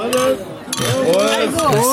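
Beer glasses clink together in a toast at a lively, crowded daytime drinking gathering, with several bright, ringing glassy chinks.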